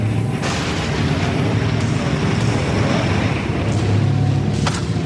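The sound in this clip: Strong wind rushes steadily as it blows out candles, a dense, unbroken whoosh with a low rumble underneath that stays loud throughout.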